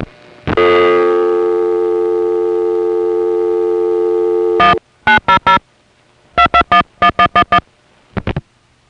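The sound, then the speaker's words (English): Telephone network signals on a call routed from Van Nuys in the Los Angeles area: a long sustained harmonic tone, then a silence, then several groups of short, sharp, evenly spaced beeps. “So they had it all set up and ready to go, and all you'd ever get was a recording from a foray, usually a circuit's busy recording.”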